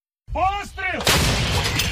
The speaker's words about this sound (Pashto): اوکرایني ځواکونه د روسي پر اشغالګرو قواو د ورځې په زورګونو د توپونو ډزې کوي.